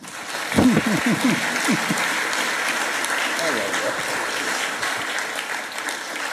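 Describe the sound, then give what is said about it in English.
An audience at a church applauds warmly to welcome a returning guest speaker, a reverend. The steady clapping runs throughout, with voices rising over it near the start. “So I'm going to ask, would you please warmly welcome an old friend, part of our family, the Reverend Dr.”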